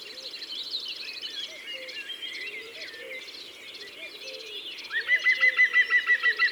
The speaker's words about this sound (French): Ça, c'est un pivert. Ce cuc-cuc-cuc, c'est le cri du pivert en vol.